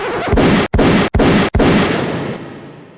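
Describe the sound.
A video game headshot sounds as a loud, dense, gunfire-like blast. Three brief gaps of silence cut through it, and a long tail then slowly fades out.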